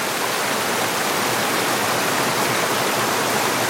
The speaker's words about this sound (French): c'est exotique d'entendre ce cours d'eau, hein, ce flux. Ça fait du bien, puis ça rafraîchit un petit peu.